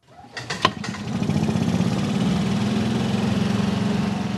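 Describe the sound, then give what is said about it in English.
A gasoline-powered golf cart driving through the small Illinois town of Cerro Gordo: its small engine catches with a brief sputter, then settles into a steady, even, buzzing rumble. “Golf carts travel slowly both by law and by design. That's just as well, as I take a spin around the Piatt County town of Cerro Gordo with Tim Allen on his gasoline-powered cart.”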